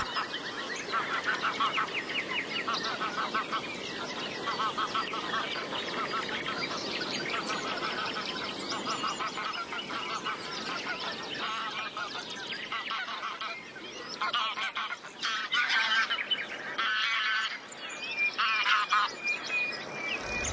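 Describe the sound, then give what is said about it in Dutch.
Geese honk continuously as they wake at a small bird lake at dawn, with light rain beginning to patter. Many overlapping nasal calls keep up a loud, steady chorus, and other birds chirp among them. A few sharper bursts come near the end. “Je hoort inderdaad de ganzen als het ware ook wakker worden.”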